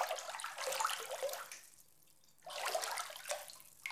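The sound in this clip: Faint water splashing and trickling while a baby is bathed, two bursts of sloshing and pouring with a quieter lull between them.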